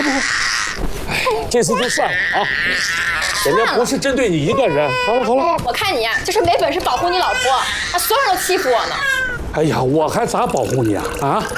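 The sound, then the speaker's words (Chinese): A baby cries in wavering, high-pitched wails mixed with loud adult voices talking over it, continuous throughout with little pause. “哭什么哭？别哭了。”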